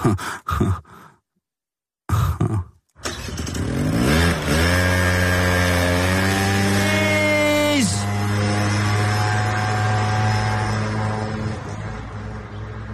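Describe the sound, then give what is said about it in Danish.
A moped engine starts after a few sharp knocks and a short silence, then revs with pitch climbing steadily, drops briefly and carries on at a loud, steady drone as it rides off. “en minister vælger, at hun vælger på den måde at køre på, på knallert væk fra os”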